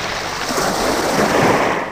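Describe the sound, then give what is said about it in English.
Ocean waves wash in as the tide comes in: a loud, steady hiss of surf that swells slightly in the middle and tapers off at the very end. “The water came in. "I can't stop it," said Dad. "I can't stop it." The tide came in.”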